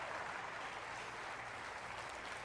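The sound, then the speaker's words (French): Applause from a church audience during a sermon: steady, dense clapping with an even texture throughout, soft in level, with no clear voices over it. “Quelqu'un devrait dire amen et applaudir avec moi.”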